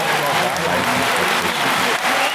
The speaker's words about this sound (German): Und das Schöne ist auch, wenn hier jemand gewinnt, für den man nicht, es wird geklatscht. Die sind einfach extrem höflich, die Japaner.